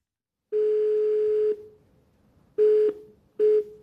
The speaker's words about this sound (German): Anruf bei der Frau eines russischen Soldaten.